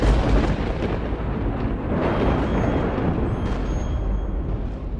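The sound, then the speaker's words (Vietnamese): A thunder sound effect for a lightning bolt striking an iron stake raised over a grave: a loud, deep rumble that starts strong, swells again midway, and stays heavy to the end. “Thức cầm cái cọc sắt giơ lên thì trên bầu trời giáng xuống một tia sét”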